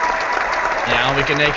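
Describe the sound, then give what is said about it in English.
A canned applause sound effect from the Google Hangouts effects set plays in a short burst, with a voice talking over its second half. “Google Hangouts has an effects set that includes sound effects. And so we could do all kinds of crazy stuff like make it seem like people enjoy our comedy.”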